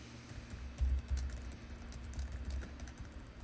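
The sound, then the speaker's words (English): Rapid typing on a computer keyboard while text is entered into a program window, many quick key clicks in a steady, continuous stream with no talking. “I'm going to type some text in here and click crash right away.”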